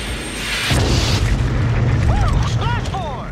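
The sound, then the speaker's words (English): A missile is fired at a MiG fighter jet: a sudden heavy boom opens into a sustained roaring rumble, with short high wavering tones sounding over it toward the end. “Yeah, so he shoots the third MiG.”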